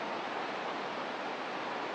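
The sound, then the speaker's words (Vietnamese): Rain falls at night, a dense, even hiss with no single drops standing out, continuous from start to finish. “tối hôm nay mưa nữa nè”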